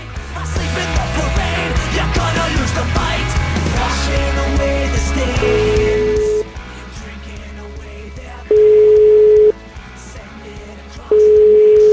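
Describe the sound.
A telephone call being dialled, with three one-second ringing tones separated by pauses, following a dense, loud opening stretch of sound.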